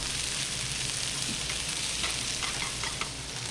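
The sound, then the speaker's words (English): Kale and arugula sizzle steadily in a pan with garlic and oil, a dense, even frying hiss broken by small crackles and pops, with no talking. “I've got some wilted kale and some arugula. And I'm tossing that with the garlic and the oil.”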